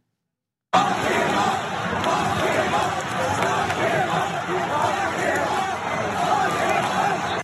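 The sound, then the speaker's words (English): Crowd booing and chanting against Donald Trump: a dense, loud roar of many voices that starts abruptly and holds steady throughout. “the boo is one thing. The chant actually got a little bit more against Trump, as you'll see.”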